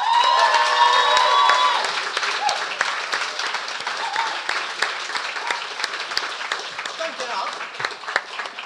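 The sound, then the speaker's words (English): An audience applauds and cheers a guest's introduction, with whoops and shouts over the first couple of seconds, then dense clapping that eases slightly, with talk over it. “please make some noise and show your appreciation for our first guest”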